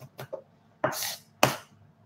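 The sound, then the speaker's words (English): Garlic being roughly chopped with a knife on a cutting board: a few soft taps, then two sharp, loud chops spaced apart, each with a brief crisp attack. “All right, so we just want to roughly chop those. If you have a Thermomix, you can do all this chopping in the Thermomix.”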